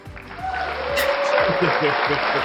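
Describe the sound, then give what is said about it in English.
Applause swells in and holds as a steady, dense patter for about two seconds, with voices talking over it. “Can I get a little something? Can I get a little applause”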